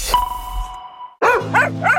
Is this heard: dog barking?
yes